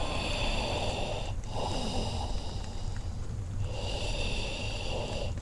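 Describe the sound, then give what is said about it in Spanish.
Heavy, labored breathing with a snorting, rasping quality, heard from behind someone crouched at a fireplace. It runs over a steady, dense noisy background, with a couple of longer drawn breaths standing out. “escuché a mis espaldas, con incuestionable nitidez, el ruido de una respiración afanosa.”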